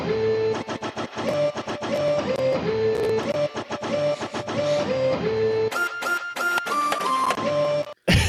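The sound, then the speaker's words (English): A printer mapped to MIDI and synced with music: many rhythmic bursts of mechanical whirring and clicking blended with steady pitched tones. The pattern shifts in the latter part before a sharp, brief cutoff near the end. “I mapped the printer to MIDI and synced it with the music, so it sounds like this.”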